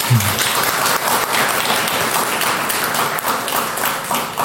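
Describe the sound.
Audience applause greeting a speaker at a talk, dense steady clapping that fills the whole stretch at an even level, with no voices over it.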